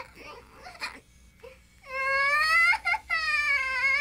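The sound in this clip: A cartoon baby cries: faint whimpers and quiet gaps give way to a loud, sustained wailing cry about halfway through, broken by two brief catches of breath, its high pitch wavering up and down.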